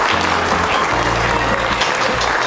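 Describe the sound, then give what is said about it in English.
A rowdy crowd at a live morning show applauds, many hands clapping in a loud, unbroken wash that holds steady throughout, with a low continuous hum underneath. “We have a rowdy crowd today for Good Morning Greater Jackson.”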